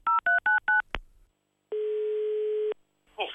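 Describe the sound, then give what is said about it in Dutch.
Touch-tone telephone dialing for a call: four short, evenly spaced beeps, then a click and a long steady tone lasting about a second, before a brief noisy burst at the end. “Ja, laten we Henk even terugbellen.”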